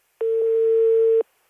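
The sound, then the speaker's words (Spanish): One steady, mid-pitched telephone ringing tone lasts about a second while a call goes through to the Chinese embassy in Spain, then stops abruptly. “Está llamando a la embajada china en España.”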